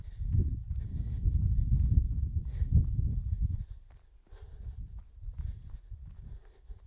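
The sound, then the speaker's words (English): Running footfalls give a faint, continuous muffled thumping that is mostly low and dull. The steps briefly drop away midway and then resume at a similar pace. “Before you know it, it's time to run again. Let's go.”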